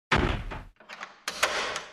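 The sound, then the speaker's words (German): A door being locked: a few dull thuds and sharper clicks and clunks of the door and lock, fairly loud, in uneven bursts with short gaps, no voices. “um aus dem Bett zu gehen und die Tür abzuschließen.”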